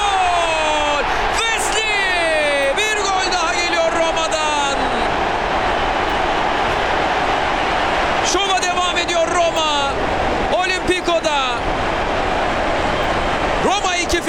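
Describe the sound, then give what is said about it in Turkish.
A stadium crowd at a Roma football match just after a 1-0 goal keeps up a steady broad roar beneath continuous excited commentary, the noise holding level throughout. “İşte Dybala'nın alkışları.”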